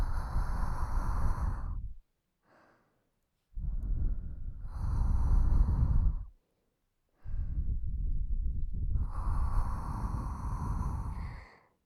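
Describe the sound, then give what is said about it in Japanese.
Heavy, intense breathing in three long, loud bursts of rough, forceful exhalation and snorting, separated by short silent pauses. “呼吸がありえないくらい激しくなってきた。”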